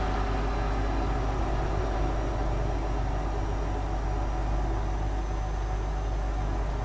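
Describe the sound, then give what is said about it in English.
Steady engine and road rumble inside a tunnel while driving in a video game, a dense continuous wash of low noise that holds at an even level throughout with no talk. “And now here we are, tunnel ambience.”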